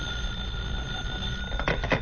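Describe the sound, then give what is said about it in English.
A home telephone rings in a 1950s comedy scene with a thin, steady bell tone held throughout, faint over low background hiss, with a few soft bumps near the end. “will you answer the phone, please?”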